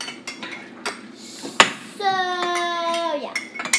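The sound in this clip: Spoon clinking against a dish holding eggs while Easter eggs are dyed. A few short, bright clinks, one much louder than the rest, with light handling noise between them.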